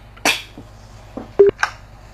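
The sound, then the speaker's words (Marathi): Telephone dialing as a call is placed into a radio program: a few short beeps and clicks, spaced irregularly, with one stronger toned burst near the end. The sounds are moderately loud and there is no talk. “श्रोते हो, कार्यक्रमात आता आपण एक phone घेऊया.”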